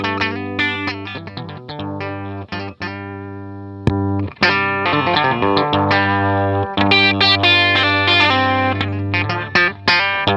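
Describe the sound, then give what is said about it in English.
Electric guitar with single-coil pickups and a Fender-style tone, played through effects with some distortion. Loud sustained strummed chords ring out, with a short break near the middle before the playing resumes. “usually Fender, or say you associate that sound more with a Fender style guitar”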